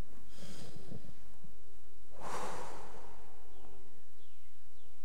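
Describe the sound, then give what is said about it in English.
A person taking a deep breath, a soft, breathy rush of air lasting under a second, followed by a few faint bird chirps in a quiet setting. “I like to take a deep breath”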